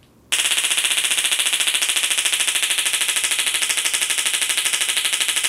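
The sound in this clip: A taser stun gun is fired, producing a loud, rapid electric clicking crackle. It starts abruptly after a moment of quiet and runs steadily without a break for about five seconds.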